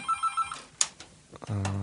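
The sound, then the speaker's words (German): An electronic telephone ringtone signals an incoming call: three quick beeps, a few brief clicks, then a sustained buzzing ring that holds to the end. “Moment, wir haben da einen Anrufer.”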